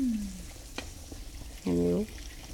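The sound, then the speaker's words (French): Rabbit in sauce simmering in a pot gives a soft, steady sizzle and bubble throughout, with a brief click and a short tonal scrape rising over it near the end. “On va laisser mijoter.”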